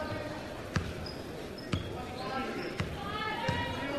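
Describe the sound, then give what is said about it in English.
A basketball dribbled on the court at a high school boys' playoff game, four sharp, punchy bounces at a steady pace over continuous crowd noise and voices. “Crossover dribble.”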